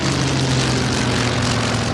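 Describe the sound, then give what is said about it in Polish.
Aerobatic display planes at an air show roar overhead in a tight right turn, flying wingtip to wingtip, their propeller engines giving a steady, loud, droning whine with no voices. “Ciasny prawy zakręt, skrzydło w skrzydło. Przyjrzyjcie się Państwo, jak gładką sylwetkę mają te samoloty.”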